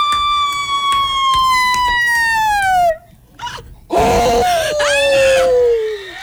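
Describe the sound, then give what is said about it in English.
A contestant's voice imitates a Sasquatch Bigfoot call in a calling contest: two long, loud wailing howls, each sliding steadily down in pitch. The second howl opens with a rough, noisy burst. “Would you please play some Sasquatch Bigfoot calling from the contestants?”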